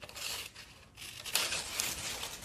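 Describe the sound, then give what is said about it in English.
Scissors cut a link of a memory chain, giving soft, quiet snipping and rustling sounds, with a few slightly sharper cuts near the middle. “Now, if I decided to cut this link, what would happen? Can you guess? Let's cut this one.”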